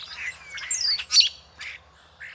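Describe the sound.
Urban birds in the Dixwell neighbourhood give a few harsh squawks and sharp calls, with one long, thin call sliding downward, spaced by short gaps against a quiet background.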